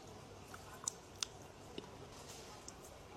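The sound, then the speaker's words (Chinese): Faint, sparse chewing of rubbery, hard-cooked egg white, with a few soft clicking bites spaced over a few seconds against near silence. “已经非常难嚼了。我咬了一半，里面的质地就像啃你家的那个橡胶拖鞋一样，对，这种感觉。”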